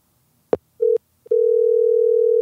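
A telephone dial tone sounds while a call is being placed. A click is followed by a brief steady tone, then another click, then a continuous, even, mid-pitched tone that runs to the end.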